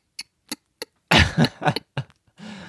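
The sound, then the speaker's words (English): A person makes harsh scratching sounds at the back of the throat: three short clicks, then a few loud rasping, cough-like bursts, and finally a low voiced hum. “A girl from public school taught me how to scratch the back of your throat by going.”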